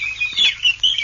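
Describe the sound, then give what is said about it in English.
Birds calling in a swamp, with quick, high chirps and tweets overlapping above a low, murky background hum in a brief burst. “This is the sound of a swamp.”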